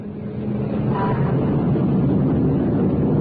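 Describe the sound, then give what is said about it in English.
Roar of a Concorde airliner surging forward along the runway on takeoff, a dense, steady, low rumble that holds at an even, loud level throughout with no voices. “We started drinking free champagne in the special Concorde departure lounge at the airport, and now excitement is high as the aircraft surges forward along the runway.”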